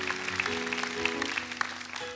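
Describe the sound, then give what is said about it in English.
An audience applauds to welcome Brother Ron, a steady wash of clapping over sustained musical tones for a couple of seconds. “Give him a big hand. Sure. Come on.”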